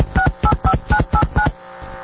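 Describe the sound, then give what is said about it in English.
A telephone being dialed for a long-distance call, six touch-tone beeps pressed in a steady rhythm and then quiet, with no voices. “Let's see here. Make a long distance phone call.”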